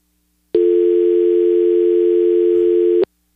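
A telephone dial tone heard after two callers were disconnected, one steady, unbroken tone lasting about two and a half seconds that starts and stops abruptly, alone with no talk.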